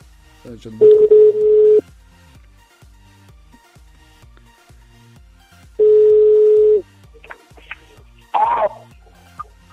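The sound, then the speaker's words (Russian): A telephone call being placed to a number: two long, steady buzzing tones several seconds apart, separated by quiet line hiss, then a short noisy burst near the end. “Так, я сейчас еще раз наберу. Наберу на этот номер, на который Джонни Депп скинул. Так. Набираем номерок.”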